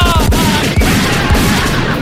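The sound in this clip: Gunshot sound effects: a burst of several sharp, booming shots in quick succession. Loud and dense, with low thumping rumbles running underneath.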